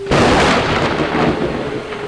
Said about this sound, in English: How are we gonna throw fuzzy dust in the rain? I don't know, just do it. I'm getting all wet.